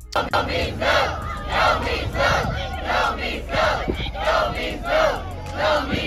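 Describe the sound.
Students chant in unison at a Kansas City school protest against sexual harassment, Lincoln College Preparatory Academy. The crowd's voices rise and fall in a steady, repeated rhythm of loud shouted phrases throughout.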